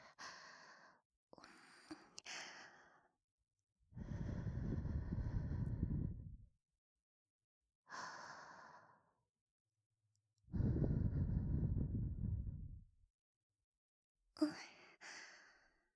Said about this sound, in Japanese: 細かいカスもあったかい吐息で吹き飛ばして、